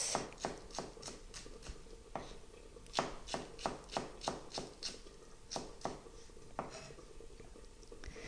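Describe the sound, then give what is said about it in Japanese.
A knife taps through a vegetable, cutting thin julienne strips on a board, with many faint, crisp strikes. The cuts come in short bursts of steady chopping separated by brief pauses. “5センチぐらいの幅に筒切りにして、それから縦半分に切ります。そしてそれを端から千切りにしていきます。”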